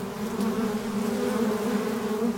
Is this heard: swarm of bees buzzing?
yes